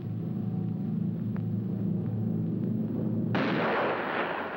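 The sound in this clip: A cartoon gunshot from a Spanish-dubbed classic cartoon: a low, steady rumbling hum gives way to one abrupt, loud blast near the end that lingers as a broad hiss.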